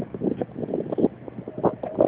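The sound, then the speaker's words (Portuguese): Wind buffeting a mobile phone's microphone during a call: a muffled, gusty rumble of irregular thumps and puffs, thin and band-limited like phone audio, holding a fairly even level throughout. “tá cortando, tá ventando.”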